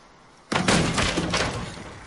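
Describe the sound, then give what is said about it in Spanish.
A door is kicked off its hinges with a sudden loud crashing bang, followed by a sustained burst of heavy, noisy clatter that continues to the end. “arranca la puerta de una patada”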